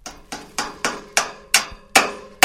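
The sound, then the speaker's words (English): Sharp hammer blows ring out as researchers assemble an antenna tower for tracking birds. The strikes are loud and evenly spaced, about one every third of a second, and each cuts off abruptly before the next. “That's the sound of researchers trying to gently, or not so gently, put together a tower with antennas to help track birds.”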